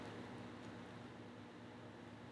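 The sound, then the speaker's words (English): A washing machine runs as a steady, even whir with a broad, hissy hum that stays low and unchanging throughout. “if y'all hear that noise in the background, that's my washing machine.”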